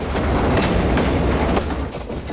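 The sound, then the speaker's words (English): A freight train runs along the track at night through woodland, making a steady, loud, broad rumble with a rhythmic clickety-clack of wheels over rail joints throughout. “The freight train travels through the night, its bright lights illuminating the track ahead and the woodland on either side.”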